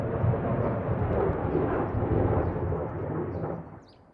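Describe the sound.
Distant artillery fire on a front line, aimed at Russian positions: a deep, continuous low rumble like rolling thunder holds steady and loud for several seconds, then fades away at the end.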